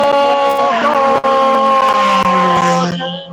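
A race car launches off the start line on pavement with a loud, steady engine roar and strong harmonics. The tone dips briefly, then sinks slightly lower and fades at the end.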